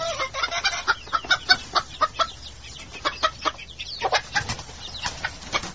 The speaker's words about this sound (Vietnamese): Từ phía đám điên điển vang lại mấy tiếng gà kêu oan oát.